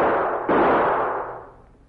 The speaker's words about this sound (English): I'll fire a couple of shots and bring him in.